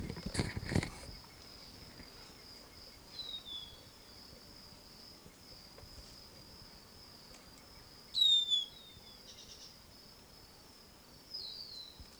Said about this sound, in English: Wild bird in the background.